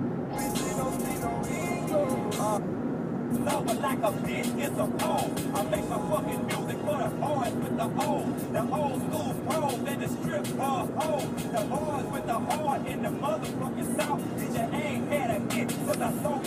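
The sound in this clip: Steady road and engine noise inside a car driving toward San Francisco, a constant low rumble that runs throughout under a person talking.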